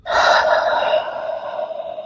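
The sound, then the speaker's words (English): A deep breath shared at the close of a yoga session: a single loud, breathy rush of air that starts strong and slowly tapers away over two seconds. “let's take one breath together. We'll inhale and exhale.”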